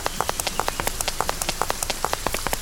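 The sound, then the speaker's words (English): Rain falls in a video game as a dense patter of many sharp droplet taps over a steady hiss, continuous and without voices. “Oh, because the rain's going away.”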